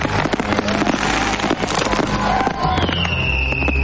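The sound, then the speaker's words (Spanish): Fireworks exploding in the sky above a street in a western film, a loud, continuous barrage of crackling bursts and pops. A high whistling tone cuts through near the end. “Saca la pistola del cinto y apunta hacia el cielo mientras los fuegos siguen estallando.”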